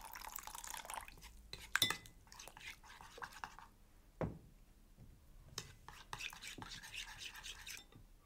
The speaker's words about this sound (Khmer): យើងកូរវាឲ្យសព្វហើយខ្ញុំសូមស្ថែមទឹកបន្តិចទៀតដើម្បីឲ្យវាមានភាពងាយស្រួលក្នុងការចៀន